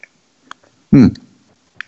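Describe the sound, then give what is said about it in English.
Sipping a barrel-aged stout beer: one short, loud slurp in the middle, with a few faint clicks before and after it. “Well, let's have a sip and see what we got.”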